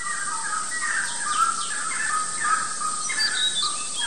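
Birds call through coastal jungle at the water's edge on Costa Rica's Pacific shore, many overlapping chirps and whistles rising over a steady high-pitched drone that runs throughout.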